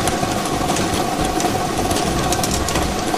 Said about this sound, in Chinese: 好的，摇奖机已经正式启动了。通过镜头我们可以看到30个号码球在摇奖机当中正在快速的旋转着